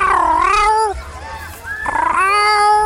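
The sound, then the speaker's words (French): A cat meowing outdoors in a park gives two loud, drawn-out yowls with a wavering, rising and falling pitch, separated by a brief quieter pause. “C'est le bruit d'un chat et on est allé le voir.”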